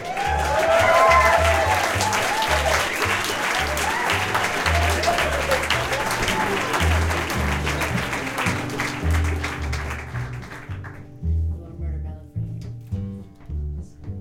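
Applause and cheering from an audience welcoming Dobro player Sally Van Meter back onstage. The steady dense clapping continues over a band's music that plays underneath, then thins out toward the end as the music carries on.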